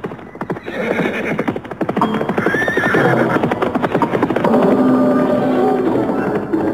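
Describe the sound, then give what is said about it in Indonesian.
A horse ridden at great speed gallops with rapid, dense clip-clop hoofbeats and loud neighing whinnies. The drumming hooves run continuously and loudly throughout. “Kecepatan lari kuda bocah tadi, sungguh luar biasa. Bayangannya saja tidak kelihatan lagi.”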